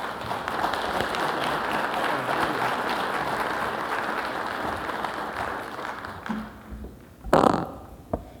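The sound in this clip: Audience applause welcoming a government minister to the stage at a policy forum, a full, steady patter of clapping that tapers off and fades toward the end.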